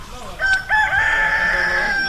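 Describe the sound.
A rooster crows once near a forest, where horses and cows graze. The call is a single drawn-out, fairly loud cock-a-doodle-doo rising over a faint background.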